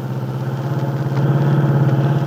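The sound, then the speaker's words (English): Engine drone from an older car being driven along a country road, a steady low hum with a regular pulsing throb that grows slightly louder partway through, with no talk over it. “Del Shipley, with Aunt Mary on the seat beside her, is driving her car toward the Lane Farm on Willow Road.”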